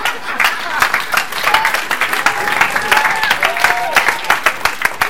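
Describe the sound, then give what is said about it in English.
Audience clapping to welcome a speaker onto a stage: dense, sustained applause with crowd noise, running steadily from start to finish. “I'd love to sort of everyone put their hands together and welcome up Neil Munro as he comes up on a stage.”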